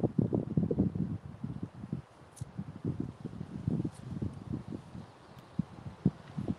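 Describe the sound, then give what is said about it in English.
Wind gusts buffet the microphone outdoors, making irregular low rumbling bursts throughout with brief quiet gaps between them. “The wind is kissing me again.”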